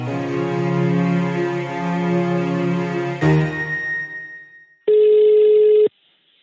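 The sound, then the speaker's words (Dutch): A ringback tone from an outgoing phone call, placed from Amsterdam to Groningen: music fades out, then one steady, mid-pitched ring of about a second sounds alone. “Die gaan we eens even bellen.”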